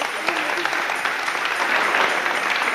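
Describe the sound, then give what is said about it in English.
Clapping from a church audience, a steady patter of many hands at constant loudness, with voices calling out over it. “Give the clap.”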